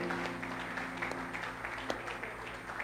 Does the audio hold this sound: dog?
no